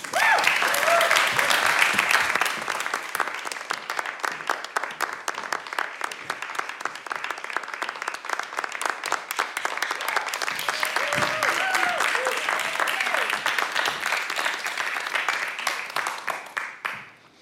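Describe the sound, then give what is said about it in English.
Audience applause greets a speaker as they are welcomed to the stage: steady, dense clapping that runs unbroken for the full length and thins out only at the very end. “So please put your hands together and welcome Uncle Vic Sims to the stage.”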